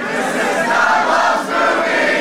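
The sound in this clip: A live audience in St. Louis, Missouri, shouts loudly together: a dense, sustained roar of many voices that holds steady, dips briefly midway, then swells back up.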